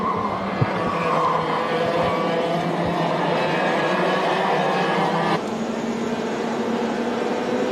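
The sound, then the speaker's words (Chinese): Race cars circle the track during a masters-class qualifying session, giving a steady, loud engine roar that holds throughout with a slight change in tone near the end. “赛道开放之后呢，车手们是第一时间驶上赛道来进行排位赛的一个争夺。”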